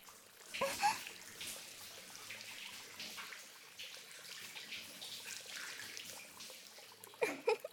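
Water poured over someone to rinse them while bathing during a trip, a soft continuous splashing flow that ends in a louder burst of splashes.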